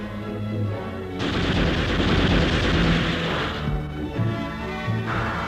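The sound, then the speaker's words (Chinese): Gunfire from guerrilla fighters in a Chinese radio drama arrives as a rolling, dense burst lasting a couple of seconds, then fades back under steady background music. “随着游击队的一阵枪声，匪军大乱。”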